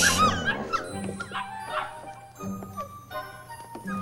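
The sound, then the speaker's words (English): A dog whimpers and yips over and over, high wavering whines mixed with short sharp barks at an irregular pace. “You get the dog. I'll get the puppies.”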